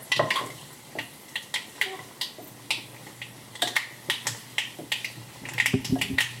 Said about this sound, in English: keep it a little warm, but you're just trying to get that spice flavor all through the coconut oil essentially. You can hear it popping just a little bit now. Sounds like popcorn, actually, a little bit.